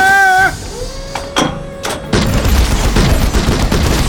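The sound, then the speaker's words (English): Battle gunfire volley sound effect for a group of five armored warriors opening fire together: a short falling tone and a few sharp separate shots, then a loud, continuous roar of dense gunfire to the end. “As one, the five unleashed a wall of fire and began their slow advance towards the enemy position.”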